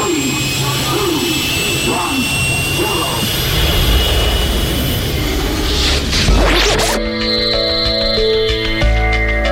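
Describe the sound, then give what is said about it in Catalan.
A magic ship takes off as a sound effect: a jet-like engine roar builds steadily, peaks in a loud whooshing swoosh, then gives way to sustained tonal, musical drones. “Som a punt d'enlairar-nos amb la nau La Fall Lluna.”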